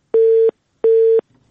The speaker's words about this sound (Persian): متاسفانه تماس خواهر ما قطع شد.